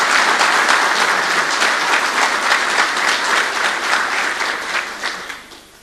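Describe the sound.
Applause for a boy who has just recited a poem: dense, steady clapping from an audience that holds level, then fades out near the end.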